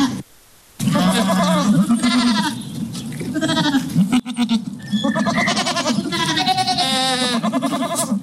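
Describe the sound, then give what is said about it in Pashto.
Livestock bleat as a robot herds them in Sydney, Australia. Many loud, wavering bleats overlap and follow one another almost without a break. “د استرالیا په سیدنی په هنتون کې د لومړي ځل لپاره ساينس پوهانو داسې روبوټ جوړ کړی دی چې د شپون کار ورکوي داسې چې چاروي پیایي.”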